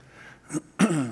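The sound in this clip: Two throat-clearing bursts come from someone mid-sermon: a brief rasp followed by a longer, harsher clearing, with no talk over them.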